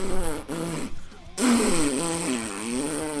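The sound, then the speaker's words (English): A voice imitates a fart into the microphone, producing a buzzy, wobbling low raspberry in a few drawn-out bursts with a brief gap between them. “I wish I had gas in me because I would love to do my overall review and fart into the mic. But, you know, well, I'll just do it like this.”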